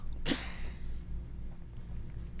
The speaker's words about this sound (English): What the fuck was that? I had a sneeze, man. That was a sneeze.